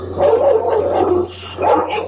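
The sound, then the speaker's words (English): A black dog trying to push through a fence barks and yips in two loud bursts separated by a brief lull, with a whining, whimpering edge over a low steady hum. “the best dog is the black dog who tries to go through the fence”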